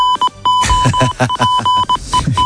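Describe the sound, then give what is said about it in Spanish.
A short football goal-alert jingle for Spanish radio, built from rapid electronic beeps at a steady pitch mixed with punchy rhythmic hits. “Suena el aviso de gol de tiempo de juego. Correcto, gol en la SEPI.”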